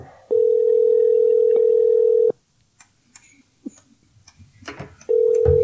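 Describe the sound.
A telephone call rings unanswered, with a steady, mid-pitched ring tone lasting about two seconds. Quiet rustles and small noises follow, then the tone starts again.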